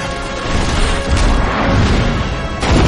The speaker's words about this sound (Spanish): Ella le dispara y en ese momento toda su fortaleza se viene abajo entre llamas y desesperación de las bestias.